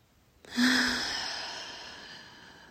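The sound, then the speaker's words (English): A deep breath during a guided breathing exercise: one long, airy, sigh-like exhale starts loud and slowly fades over a couple of seconds, with no talking. “Let's take a deep breath in and out.”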